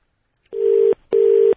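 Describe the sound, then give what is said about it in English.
A telephone line rings out after a call is dialed, with two steady, loud, mid-pitched tone bursts of equal length separated by a short gap. “I'm having to put the calls through that one and then dial.”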